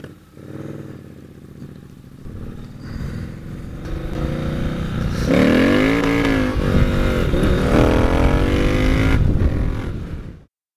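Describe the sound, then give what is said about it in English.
Triumph Bonneville T120 1200 parallel-twin motorcycle with a two-into-one exhaust: the engine rumbles, then revs up with rising pitch and holds a strong, throaty drone, with wind noise over it before it cuts off. “Sorry, it's a real short clip. He had a lot of wind noise in that one, but that's his Bonneville, Triumph Bonneville with a T120.”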